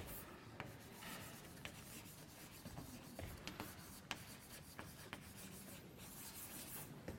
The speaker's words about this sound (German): Schreibe ich es nochmal aus.